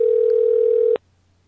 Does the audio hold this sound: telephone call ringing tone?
yes